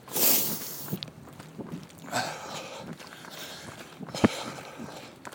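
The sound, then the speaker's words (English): Footsteps of a runner going easily up a hill, with soft, uneven footfalls and scuffs throughout, a louder rushing burst at the start and a sharper thump near the end. “so I'm running up this hill, but I'm just running up it easy to get a nice little workout.”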